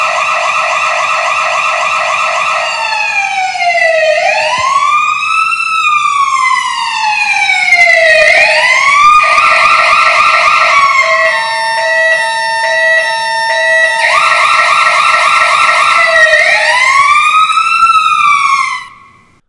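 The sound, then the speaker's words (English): Loud electronic siren wailing in repeated sweeps up and down in pitch, with a fast warbling stretch in the middle, before cutting off abruptly at the end. “I'll ring the siren, put your hands in the air. When you can't hear it anymore, put your hands down”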